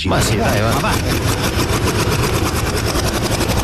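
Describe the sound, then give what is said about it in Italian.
Rapid ticking of a prize wheel spinning, a dense, steady stream of loud clicks that runs through the whole moment, with a voice briefly heard over it. “Allora, giriamo la ruota lo stesso, posso girarla?”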